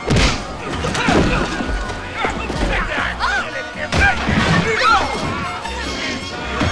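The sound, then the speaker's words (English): Glass smashing as a man is punched through a plate glass window: loud crashes and heavy thumps in a dense, chaotic mix of impacts. “Pecos saunters across, then socks Zeke through the plate glass window.”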